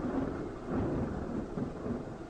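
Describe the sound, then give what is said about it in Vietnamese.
Heavy rain pours down with thunder, growing heavier over a dark road while a car is driven through it, a steady low rumbling roar with a dense rainfall hiss and slight swells in loudness. “Mưa càng ngày càng lớn.”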